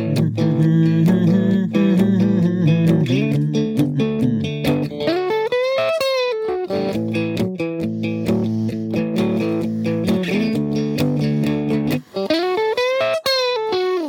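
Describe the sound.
Guitar riff played across the strings high on the neck around the tenth to fourteenth frets, with a distorted, effects-heavy tone; loud repeated picked notes with a couple of quick sliding pitch swoops, played alone without talk.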